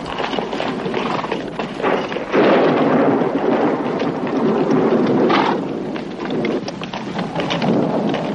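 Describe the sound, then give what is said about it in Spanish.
A thunderstorm breaks over people leading their horses on foot: steady, loud, dense rain with low rolling thunder and crackling bursts. “Siguen avanzando a pie, tirando de las riendas de sus caballos mientras la tormenta se desencadena sobre ellos.”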